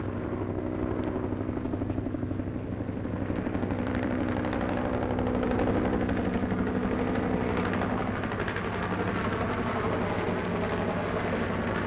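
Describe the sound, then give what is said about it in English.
Rockets and M60 machine guns firing during a Vietnam War search-and-clear operation, heard as a dense, rapid rattle over a constant loud, droning engine. “They are now firing into that area with rockets and M60 machine guns.”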